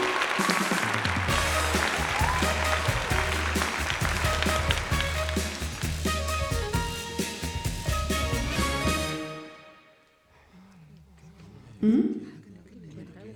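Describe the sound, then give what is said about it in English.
Applause welcoming an animal guest onto the stage at a show: a loud, dense wash of clapping fills most of the time, then fades out into near quiet. “好的，接下来要欢迎第四位动物来宾的进场，我们掌声鼓励鼓励。”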